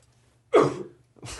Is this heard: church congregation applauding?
no